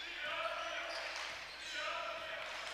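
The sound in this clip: Basketball being dribbled on a court during a game, with bounces buried in steady, loud crowd noise that dips briefly near the middle.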